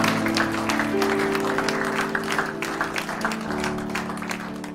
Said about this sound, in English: Come on, give him a hand clap of praise tonight before we go.